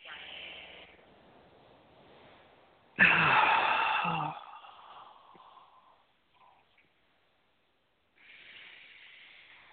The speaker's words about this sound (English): And now take a nice deep breath.